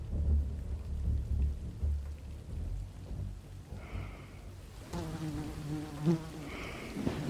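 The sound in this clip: A fly buzzing in a few short bursts, its thin droning hum coming and going over a low, rumbling, windy noise bed.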